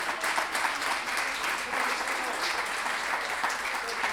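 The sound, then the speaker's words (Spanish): Audience applause at an improvised verse-singing tournament, a dense, steady wash of many hands clapping that holds at an even level throughout. “así que agradecer un aplauso para Felipe”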